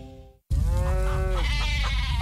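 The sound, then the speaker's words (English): Farm animals bleating in alarm: a long, loud, wavering sheep-like bleat followed by further overlapping bleats over a steady background rumble. “Hey, everybody, calm down. It's okay. Oh, it's coming. The farm animals can always feel it.”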